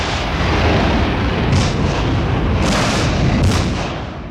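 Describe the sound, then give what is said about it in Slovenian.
Hand grenades exploding after being thrown from a hotel: a continuous loud, rumbling roar of blasts, with a few sharper bursts standing out through the second half. “Zdaj mečejo ročne bombe iz hotela.”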